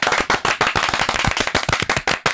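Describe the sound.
An audience clapping: many sharp, loud claps in a fast, slightly uneven rhythm, each one a crisp burst, with no talk.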